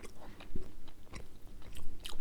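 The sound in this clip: Crunchy chewing of a crumbly vanilla crescent cookie heavily dusted with powdered sugar: many moist bites and crumbly crunches in an uneven rhythm, fairly close and clear, with no talking.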